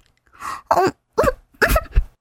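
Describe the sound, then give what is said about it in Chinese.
Coughing from a person who is trying to speak: a few rough, breathy bursts with uneven gaps, fairly loud and with no clear words. “韩池一边咳嗽一边说道”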